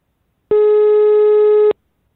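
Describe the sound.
Telephone tone on an outgoing call: a single steady, loud ringback tone of just over a second, heard alone against silence.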